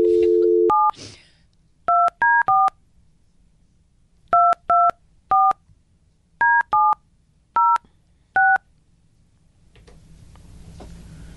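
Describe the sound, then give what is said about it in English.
A telephone number is dialed on touch-tone keys. A short dial tone gives way to eleven electronic beeps in uneven clusters, and a rising hiss follows once dialing ends. “Can you dial her number, please? I'm terrified, but I could try. You can do it. All right, I got fat fingers. Here we go.”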